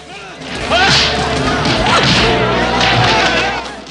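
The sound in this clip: Fight sounds from a large martial-arts brawl, with kicks and punches traded between fighters: loud swishing whooshes and dull thuds blur together in a continuous, chaotic rush of impacts.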